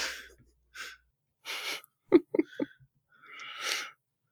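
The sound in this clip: A voice imitates a huffy whale exhalation from a blowhole with a few breathy, hissing puffs. Short voiced grunting bursts fall in the middle, all fairly faint with quiet gaps between.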